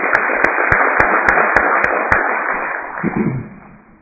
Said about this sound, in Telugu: అందులో హి deserves clap.